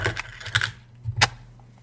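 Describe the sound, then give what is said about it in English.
Hard plastic clacks and rattles as an audio cassette tape is slotted into a tape player, a few quick clicks followed by one louder clack before the sound stops. “there is another audio tape in here. This is weird. This is so strange. Here, I'm put this in the tape player, you shithead.”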